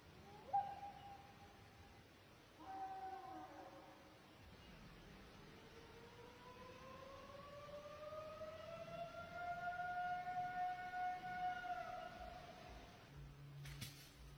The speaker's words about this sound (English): You got a fucked up siren. That's Bigfoot talking.